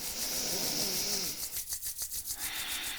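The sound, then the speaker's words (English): Hands rubbed together energetically make a loud, dry, rasping friction. A continuous swish breaks into quick, rhythmic back-and-forth strokes. “And as you exhale, rub your hands energetically.”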